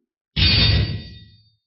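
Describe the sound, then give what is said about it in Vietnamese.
Metal weapons clash with a burst as a huge blood-red sword strikes a flaming scythe. The loud hit starts suddenly with a bright metallic ring and a deep rumble, then fades out over about a second. “Một tiếng kim loại va chạm phát nổ”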